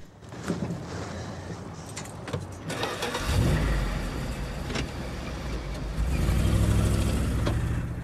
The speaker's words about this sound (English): As she starts the engine, she glances round furtively.